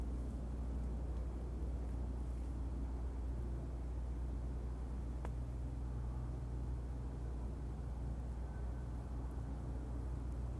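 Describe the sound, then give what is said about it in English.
Distant cars near outdoor wetlands make a steady, continuous low rumble of traffic with a faint hiss over it. No distinct passes stand out. “If all you hear is cars in the distance, then you are hearing what I hear.”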